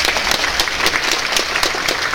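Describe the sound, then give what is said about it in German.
Audience applause for the candidates at a scored competition at a fair. Many hands clap in a dense, loud, continuous wash that runs without a break from start to finish. “da haben wir einen riesen Applaus für die Kandidaten.”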